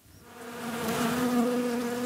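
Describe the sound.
Ground wasps buzz at an underground nest beneath a lawn at a swimming pool, making a continuous droning hum that swells in loudness during the first second and then holds steady, with no talk.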